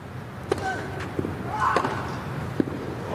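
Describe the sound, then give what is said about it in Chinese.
Tennis ball strikes from a Grand Slam men's singles match, including Zverev's backhand down-the-line return of serve. A few sharp, brief thuds stand out over a steady background wash. “哇，这球反拍接发球，兹维列夫接进来了，反拍直线的一记 return ace。”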